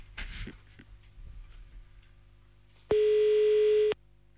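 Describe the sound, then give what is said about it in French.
A telephone line tone sounds as an outgoing call is placed: faint clicks and rustling, then one loud, steady buzzing tone lasting about a second before cutting off abruptly. “Bon, allez, c'est parti. On appelle Aion maintenant.”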